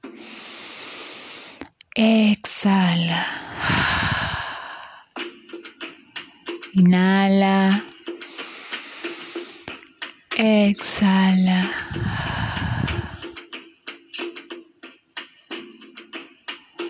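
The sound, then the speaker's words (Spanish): Deep breaths drawn during a guided breathing meditation, several long, airy rushes of breath alternating with sustained tonal passages, moderately loud throughout. “Inhala.”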